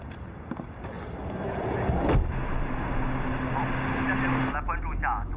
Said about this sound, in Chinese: 第二天一大早，凯西开车接顾新言上班。